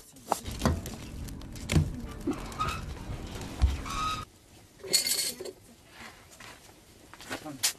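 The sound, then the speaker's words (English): Pots and utensils clink while a lapsha noodle dinner is prepared, with scattered light metallic taps and clatters at irregular moments. “The mother now prepares dinner. The menu is lapsha, which means noodles.”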